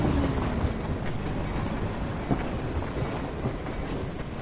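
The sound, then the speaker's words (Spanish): A freight train carrying coal rolls past in a dense, steady rumble, with rhythmic clacking of wheels on the rails throughout. “Pasa un tren de mercancías que porta carbón.”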